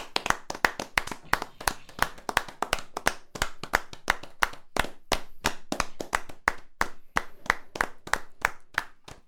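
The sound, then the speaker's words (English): Hand clapping from a few people showing birthday appreciation: many sharp, separate claps in a quick, slightly uneven rhythm, loud and steady throughout, with no talking over it. “I just want to clap for 20 seconds just to show our appreciation for him.”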